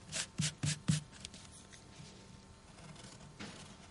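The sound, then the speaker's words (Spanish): A rubber eraser scrubs out a spelling mistake in a handwritten letter: a few brisk rubbing strokes in quick succession, then fainter scratching on paper with one more short stroke near the end. “Niega con su cabeza y toma la goma para borrar la falta de ortografía y escribirla con B.”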